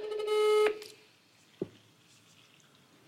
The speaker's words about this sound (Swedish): Får jag bara ringa upp min kompis som är så duktig på att naila den här luckan? Mm. Vi ser om hon svarar.